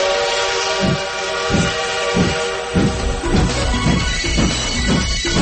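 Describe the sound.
A train departs with rhythmic chuffs that start slow and quicken steadily, while a sustained whistle tone sounds over them.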